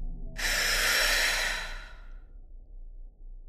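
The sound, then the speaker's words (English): A single deep breath, one long airy rush of air that swells quickly, holds, then gradually tapers away, heard alone with no talking. “Let's take a deep breath now and move through this crisis together while we're both still here.”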